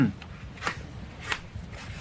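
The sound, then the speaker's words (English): Faint scratching of the ichthys fish symbol being drawn on paper: a few short, dry, rasping strokes separated by quiet gaps. “Here, I'll draw it for you.”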